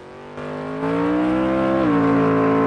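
A car engine roars as cars race along a hilly road in a chase, stepping up in loudness twice early on, its pitch climbing steadily before dipping briefly near the end.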